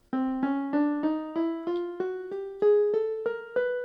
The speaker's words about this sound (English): The chromatic scale is made up entirely of half steps. It sounds like this.